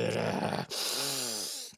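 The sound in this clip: A man's voice imitates big gasping breaths through the nose: a long, loud, noisy breath, then a strained groaning tone, with another sharp breath starting at the end.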